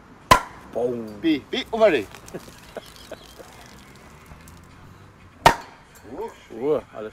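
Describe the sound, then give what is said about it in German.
A beer bottle is opened in a backyard where older men sit on wooden benches: two sharp cap pops stand well apart, with voices talking in between. “Das dritte Bier des Tages wird gerade geöffnet.”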